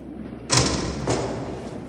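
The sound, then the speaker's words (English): A door opens with a sharp thump, then a softer second knock follows about half a second later over low background hiss. “The door opens.”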